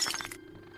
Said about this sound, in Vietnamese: Xong, ném cái cốc đánh xoảng một cái xuống đất vỡ tan tành.